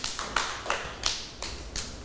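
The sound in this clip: Rhythmic clapping by young children and their teacher at school in praise of a pupil: a few evenly spaced, fairly quiet claps, each a short sharp slap.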